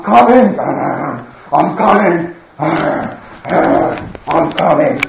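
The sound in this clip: A human voice imitates a lion's growl in a series of rough, raspy growled bursts with short pauses between them.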